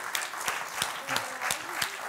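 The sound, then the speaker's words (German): Studio audience applause on a German TV quiz show, a steady, moderately loud wash of clapping with a few louder claps standing out. “Lieber Martin, Ihr Hessen-Quizbuch, unser herzlicher Applaus.”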